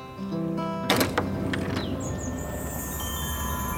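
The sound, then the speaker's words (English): A door opening to the outside from a room full of vintage Volkswagen memorabilia onto a grassy field: a few brief knocks and clatters, then steady, wind-like outdoor ambience. “opens a door to the outside”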